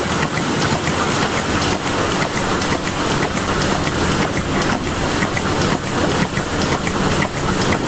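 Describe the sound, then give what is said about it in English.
A milking machine pulsator in a milking parlour gives a loud, steady hissing rush with a faint rapid pulsing running evenly throughout. “He's at the Pulsator in a milking parlour. That's what it is it?”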